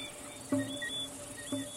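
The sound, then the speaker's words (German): Shrill, piercing chirping of thousands of crickets at dusk near a river mouth: a faint, steady high-pitched chorus with a couple of brief, slightly louder notes. “Es dämmert bereits. Tausende von Grillen empfangen sie mit durchdringendem Zirpen.”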